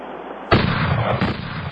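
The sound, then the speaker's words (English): Gunshots ring out during target practice: a sharp, loud crack bursts out after a quiet lead-in, then a second report follows about a second later, with noisy rumble between them. “We're going to do a little target practice.”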